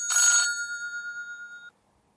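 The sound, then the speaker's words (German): A phone rings with an incoming WhatsApp call: one short, loud burst of electronic ringing, then a single high tone that lingers and fades before cutting off abruptly into silence. “Jetzt ruft er mich an, dann machen wir es über WhatsApp.”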